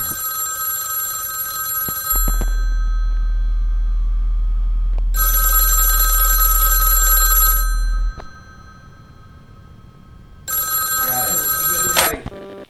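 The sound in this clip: A telephone rings with an incoming call: three long bursts of bright electronic ringing, separated by quieter gaps.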